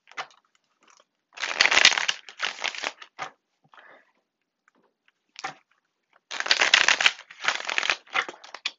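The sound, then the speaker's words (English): Tarot cards being shuffled and pulled from the deck, several bursts of crisp riffling and rustling separated by quiet pauses. “I'm gonna pull a card for this abundance and see.”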